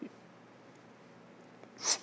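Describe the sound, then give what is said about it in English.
A single quick, forceful breath is drawn near the end of an otherwise quiet stretch, taken as a full inhale in a breathing exercise demonstration for freediving lung training. “I would just demonstrate, and it's inhale. Full inhale, and then it's relaxation.”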